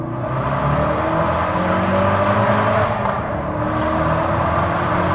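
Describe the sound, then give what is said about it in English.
A Mountune-tuned car running on race gas accelerates hard in second gear from 3,000 rpm, a loud, steady engine roar that fills the whole stretch with no talk over it. “Here, we'll do it. I'll show you second gear. There you go. Here's a second gearer from 3,000 and second.”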